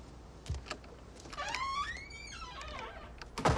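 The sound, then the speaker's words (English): A door is closed as a man walks out, heard faintly: a soft knock, then a creaking, whining squeal that rises and falls, and a dull thud at the end. “casually walks out, closing the door behind him”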